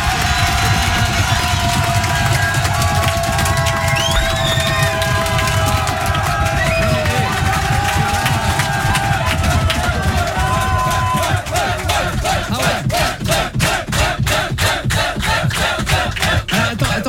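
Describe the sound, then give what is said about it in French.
A live radio show's studio audience cheers, whoops and shouts over loud, continuous clapping. Partway through, the crowd settles into fast clapping in unison with a steady, even rhythm while the cheering continues. “On va vous applaudir.”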